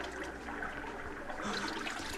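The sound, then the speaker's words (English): Water splashes and trickles as someone washes in the Pool of Siloam, a soft, continuous watery wash at low level with light sloshing ripples and no voices. “The man said to wash in the pool. I know not why, but I will.”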